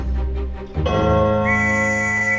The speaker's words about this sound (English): The doorman blows a whistle.